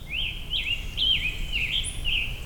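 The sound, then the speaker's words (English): A warbler gives several buzzy, high-pitched calls in a loose series of short wavering trills with brief gaps between them, plus one thin higher note near the end. A low steady rumble runs beneath. “Some kind of warbler doing some buzzing”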